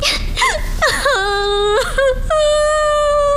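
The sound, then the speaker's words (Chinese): A woman crying and whimpering: a series of strained, wavering wails that bend up and down in pitch, ending in one long sustained moaning cry. Loud and close, with no spoken words. “哎，你哭什么呀？啊，你别哭啊，有话说呀。不许哭。”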